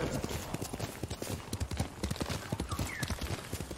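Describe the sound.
Horse hooves clip-clop in a fast, steady rhythm, with many loud hoof strikes that run on without a break over a broad, noisy background.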